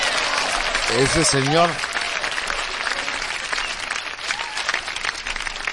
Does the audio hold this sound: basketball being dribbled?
no